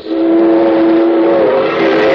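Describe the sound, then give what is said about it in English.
A steam-style train whistle sounds as one loud, sustained tone that holds a steady pitch for the full two seconds, with no voices. “Wait a minute, what's that? There's a train on a dress.”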